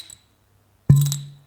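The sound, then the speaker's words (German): A single hollow plop as a finger is pulled out of a bottle mouth, with a low resonant ring that fades over about half a second after a faint tick. “wenn du so mit dem Finger in die Flasche gehst, dann plöppt halt immer so ein bisschen.”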